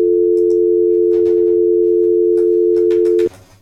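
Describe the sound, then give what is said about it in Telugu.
A telephone dial tone sounds after a dropped call, a loud, steady, unbroken hum that cuts off abruptly near the end. “Call అయితే cut అయింది.”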